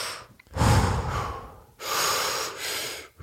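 Deep breaths during a timed breathing exercise: two long, forceful rushes of air, loud and noisy, each swelling and easing off, with no talking.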